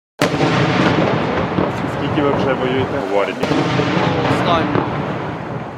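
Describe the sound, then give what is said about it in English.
A nearby explosion during sustained Russian attacks on the eastern Ukrainian city of Bakhmut: a sudden loud blast onset, then several seconds of heavy, continuous rumbling roar with a second sharp jolt partway through. “That was the sound of a nearby explosion in attacks which have persisted for months now.”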